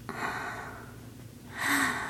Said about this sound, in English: Take a deep breath.